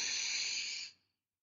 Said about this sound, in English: Inhale.